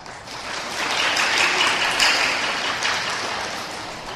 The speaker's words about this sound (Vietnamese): Thầy nghe vỗ tay là thầy nín rồi, thầy liền để cho vỗ. Nhưng mà con người vẫn còn bõn xẻn, keo kiết, vỗ nhỏ xíu à.